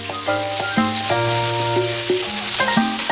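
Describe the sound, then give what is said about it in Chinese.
Rice-field eel shreds deep-fried in hot oil give a steady, dense sizzle throughout, while a melody of clear sustained notes steps up and down over the frying. “下锅油炸，酥脆鲜香。”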